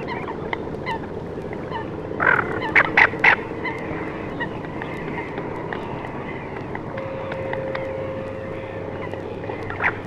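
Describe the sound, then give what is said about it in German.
A few low, rasping calls from a single tufted duck, wintering on the Baltic coast, stand out briefly over a steady noisy background, with coots and black-headed gulls behind. “Im Winterhalbjahr halten sich große Schwärme nordischer Reiherenten bei uns auf. Hier die schnarrenden, tiefen Rufe einer einzelnen Ente. Im Hintergrund Blässhühner und Lachmöwen.”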